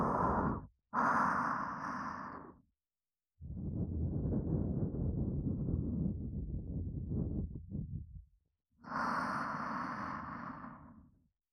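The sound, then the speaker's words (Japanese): Four puffs of air blown out in a steady breathy hiss, the first brief, the third the longest at several seconds, separated by short silences. “それじゃあふうってしますね。いきますよ。”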